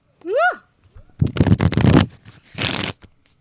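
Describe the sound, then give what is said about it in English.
Tarot cards are shuffled back into the deck in two rapid riffling bursts, the first longer than the second, with a short voiced hum just before them. “I like shuffling cards back in the deck because I like seeing what appears again in questions”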